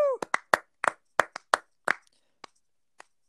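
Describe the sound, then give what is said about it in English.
Hosts clapping by hand, about ten sharp claps that start quickly, then slow and thin out to a few last claps, with a brief voice at the very start. “Still clapping, boys. Still clapping. All right, you can shout it. You can stop.”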